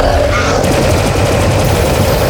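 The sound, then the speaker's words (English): Rapid automatic gunfire in an audio drama makes a loud, dense, continuous barrage of overlapping shots with no pauses. “Hold your fire! That's the target!”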